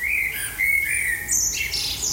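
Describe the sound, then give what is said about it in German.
A barn owl call, a harsh, high, hissing screech with raspy tonal streaks, sounding continuously and loudly with slight surges for a couple of seconds, with no voices. “Schlusslicht wurde die gerade gehörte Schleiereule, wobei die vermutlich einwenden würde, das war ja auch ein Ruf und kein Gesang.”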